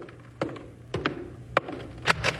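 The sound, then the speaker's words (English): A door being opened, its latch or mechanism giving a few sharp clicks and wooden knocks spread over a couple of seconds, with no voices. “Well, it's about time you showed some common courtesy and opened the door.”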